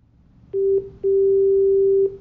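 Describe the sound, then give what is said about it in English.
A telephone rings with a steady, low electronic tone, sounding first in a brief burst and then in a longer one lasting about a second, loud and alone against faint background noise. “what is that sound? That's the phone ringing.”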